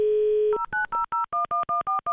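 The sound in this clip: Telephone keypad tones dialing a medical hotline number in Lucerne: a steady dial tone, then a quick, evenly spaced run of many short two-note beeps, clear and alone.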